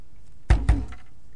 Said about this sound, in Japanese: 部屋のドアを叩く音がする、おかしいなあ、こんな時間誰だろう